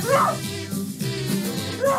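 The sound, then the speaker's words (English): A person imitates a dog barking, playing a stand-up dog character: a few rough, voiced barks and yips run close together at moderate loudness, with a final short bark at the end. “I don't use words, but I do bark like a regular dog.”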